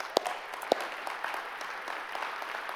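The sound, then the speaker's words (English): Applause from a church audience clapping for single parents: a steady, fairly soft spread of many hands, with a couple of sharper claps standing out near the start. “Single parents, I want to pause for just a minute and say, you are my heroes. You guys, and you guys can clap for them.”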